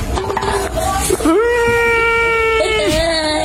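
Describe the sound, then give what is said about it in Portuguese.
A child cries loudly, breaking from choppy whimpers into a long, sustained, wavering wail that holds for about a second and a half before trailing off. “Já chorou.”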